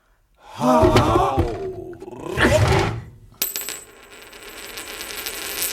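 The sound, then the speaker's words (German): A Greek coin drops with a bright metallic clink and keeps ringing and rattling steadily. Two broad, noisy bursts come before it. “Eine Münze. Das ist griechisch.”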